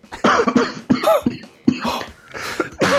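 Coughing fit: a rapid series of harsh, loud coughs in repeated bursts, one after another with only brief gaps between them.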